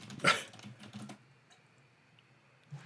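Typing on a computer keyboard, a quick burst of clicks in the first second, then near silence with one more soft tap near the end.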